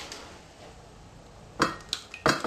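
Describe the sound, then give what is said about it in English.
Mushrooms and tomatoes are dropped into bowls in a kitchen, giving a few sharp clinks and clatters late in a quiet stretch. “The mushroom go into the bowl, and the tomatoes also go in another bowl.”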